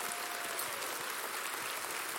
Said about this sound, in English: Can we give Pastor John an amazing round of applause for his leadership?